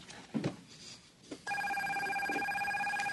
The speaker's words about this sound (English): Everybody's phone sounded like this as well.